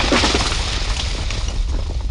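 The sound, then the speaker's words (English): An earthquake shakes the ground, producing a continuous low rumble with a harsh, noisy roar. It stays loud and steady throughout, with no distinct individual impacts. “No, what you're hearing is the ground literally shaking. It's a natural phenomenon called an earthquake. It's just a low rumble right now”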